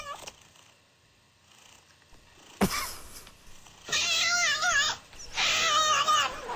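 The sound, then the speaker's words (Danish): A cat purrs and meows in two loud, drawn-out bursts of about a second each. A brief sharp click and a quiet stretch come before them, and no one speaks. “Kommer kat nummer to.”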